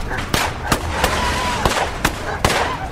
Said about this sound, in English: shots tore through their real bedroom. The gunfire lasted a while.